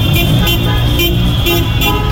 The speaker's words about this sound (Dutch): Ook hier op de Westkruiskade wordt er flink getoeterd en is er feestvreugde. De straat wordt bezet door auto's, door vlaggen, door feestende mensen